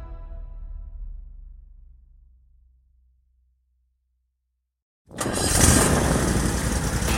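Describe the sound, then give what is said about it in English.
A Toro Z-Master 4000 zero-turn mower engine: a low engine rumble winds down into silence, then a sudden loud, rough roar bursts in as the engine starts up and keeps running strongly. “That's the sound of a day starting out right. I hear it every time my new Toro Z-Master 4000 Zero Turn starts up.”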